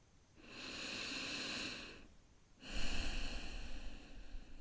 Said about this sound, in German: Und irgendwie sind ja allein schon so ein paar Atemzüge immer ganz heilsam, finde ich. Mal tief durchzuatmen ist immer irgendwie schon der erste Weg zur Heilung